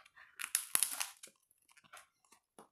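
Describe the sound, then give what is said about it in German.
Crisp crunching and crackling from chewing bread, with a dense burst of bites in the first second. Fainter, sporadic mouth noises follow, all quiet overall. “Und esse dabei Brot. Ich entschuldige mich an der Stelle schon mal. Mit vollem Munde spricht man ja nicht.”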